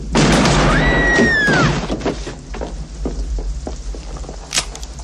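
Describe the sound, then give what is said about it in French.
Gunshot fired at an unarmed man in a saloon scene of a western film: a sharp, loud blast followed by a whining ricochet-like tone, then a few faint clicks and knocks. “Vous êtes le plus lâche de tous les salopards. Vous tirez sur un homme désarmé.”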